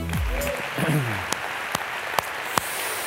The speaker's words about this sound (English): Summit Church, please put your hands together and welcome back Pastor Joby Martin.